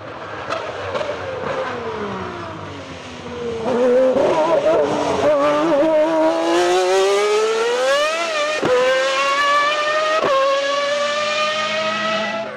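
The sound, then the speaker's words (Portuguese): A Ferrari F412 T1 Formula 1 car with a V12 engine races past, its high, layered engine note climbing steadily in pitch and cut by a couple of abrupt drops before climbing again, loud and sustained throughout. “Querendo reviver os bons tempos, a Ferrari cria a F412 T1, ainda empurrada pelos magníficos V12”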